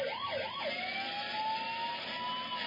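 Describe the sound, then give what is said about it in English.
A small ambulance's siren gives a few quick wailing sweeps, then settles into a steady, sustained tone. It is fairly faint over constant traffic noise. “What the hell is that? That's the smallest ambulance ever seen.”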